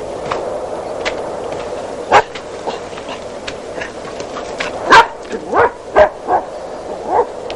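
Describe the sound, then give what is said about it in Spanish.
A dog barks outside a rural hut. Several sharp, mid-pitched barks and yips come sparsely at first, then cluster in quicker succession toward the end over a steady low hiss. “perro sale al encuentro”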